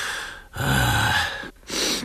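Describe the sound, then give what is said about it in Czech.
Loud, wet sniffing through a runny nose comes in three breathy bursts. The middle sniff is the longest, and short silent gaps separate the bursts. “Nefuňo, vysmrkej se. Nemáš kapesník?”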